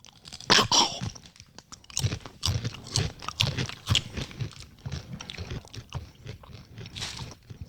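Chewing of a crunchy, strongly spiced Mexican snack like tortilla chips, sour with citric acid. Crisp bites and crackling crunches come in an irregular string over several seconds, fairly faint, with no talking.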